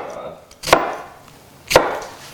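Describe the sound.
A knife chops through an onion on a cutting board in two crisp, knocking strikes about a second apart, each fading quickly into near quiet.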